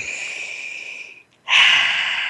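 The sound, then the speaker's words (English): Two deep breaths taken during a guided breathing exercise: a long, airy, steady breath fades away, then after a brief silence a second strong breath starts abruptly and holds, louder and hissing, with no talking over them. “So with that, let's take a moment together and breathe.”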